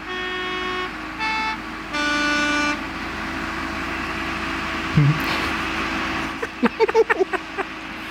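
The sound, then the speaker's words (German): An old yellow postal bus sounds its horn on a mountain road with three rich, reedy toots, the last held longest, followed later by a short burst of sharp clicks. “Man sieht jetzt einen uralten gelben Postbus die Bergstraßen aufgefahren. Schön langsam.”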